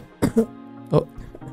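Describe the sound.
A person coughs in two short bursts, the first a quick double cough and the second a single harsher cough, followed by faint breathy sounds.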